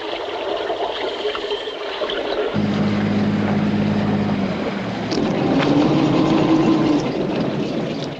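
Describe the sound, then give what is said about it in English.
A boat arriving at a pier: its engine drones steadily, with a low hum and water noise throughout, and the tone of the motor shifts partway through. “The boat arrives at the pier, where a finger points to the flashing light on a board that indicates a precise location.”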